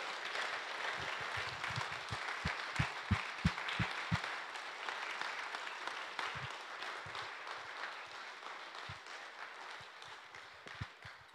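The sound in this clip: Soft audience applause welcoming guests at a Fairmount Friends gathering: even, continuous clapping lasting several seconds, with a few sharper individual claps standing out from the crowd.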